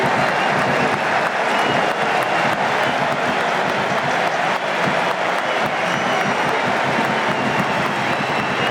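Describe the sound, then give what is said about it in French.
A stadium crowd gives a sustained ovation at a France national team football match as substituted players leave the pitch, producing a dense, loud, unbroken roar of applause and cheering from start to finish. “On va écouter l'ovation.”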